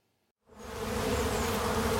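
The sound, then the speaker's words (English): Honeybees buzzing around hives in a community garden among historic downtown buildings in Omaha, Nebraska, on a sunny March day. After a brief silence the dense, steady drone swells in and holds loud and continuous, with no talk. “In a community garden surrounded by historic downtown buildings, beekeeper Mark Welsh is taking advantage of the nice weather and checking on his honeybee hives.”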